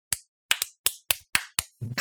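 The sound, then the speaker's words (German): A single person clapping: seven sharp, crisp claps at uneven intervals, each loud and short, followed by a brief low rumble at the close. “Ich weiß nicht, was das war. Mein Klatschen, egal.”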